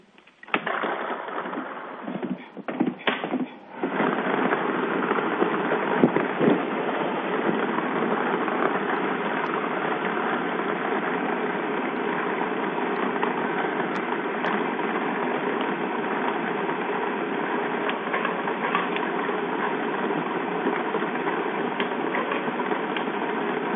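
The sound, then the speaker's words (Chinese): A lottery ball drawing machine runs for a Chinese welfare lottery 3D game draw. A dense, steady mechanical whirr with a rattling texture holds at an even level throughout, after a few clattering bursts at the start. “好的，马上为您启动摇奖机。”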